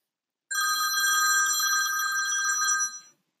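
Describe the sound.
A telephone rings for an incoming call: a single sustained, bright, high ring lasting about two and a half seconds before it cuts off, with nothing else heard.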